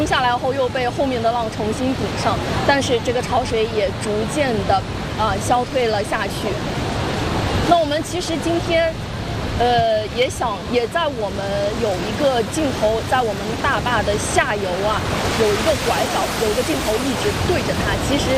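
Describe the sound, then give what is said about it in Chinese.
Tidal bore waves colliding mid-river at Laoyancang dam produce a continuous, dense rushing roar of churning water that stays steady and loud throughout, with someone talking over it. “这一瞬间，西边的浪往东边赶，东边的浪往西退，两股潮水在江心迎头碰上，水面被顶起了一道新的脊梁，越顶越高。”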